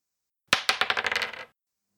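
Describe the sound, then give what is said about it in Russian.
A die is thrown onto a hard surface and rattles in a quick series of clattering bounces that come faster and softer and stop after about a second. “Бросаю кубик. У меня 5. А у меня”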